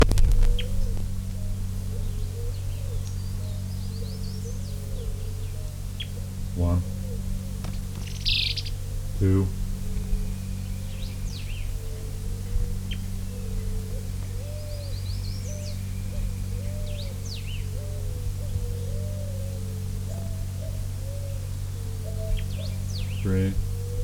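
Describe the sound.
Elaenia flycatcher calls as several birds interact, short high chirps and buzzy notes arriving in scattered bursts over a steady low hum and constant background noise.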